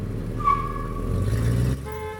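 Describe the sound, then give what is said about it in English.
A car backs out in a car park with a steady low engine rumble that swells slightly and then cuts off abruptly near the end, with no talking. “In a car park, he takes a ticket from a machine. Someone backs a car out in front of him, forcing him to stop.”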